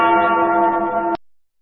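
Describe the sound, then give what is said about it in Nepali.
A single steady electronic chime from a radio station's time signal marking nine in the morning, holding an even, rich tone for about a second before cutting off abruptly into silence. “Shukla Gandaki time check. यति बेला बिहानको ठिक 9 बज्यो।”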